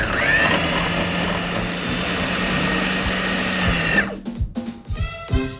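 A food processor whirs loudly and steadily for about four seconds as it blends cut-up food with salt and pepper into a smooth mass. The motor then cuts off and a few sharp knocks and clatters follow.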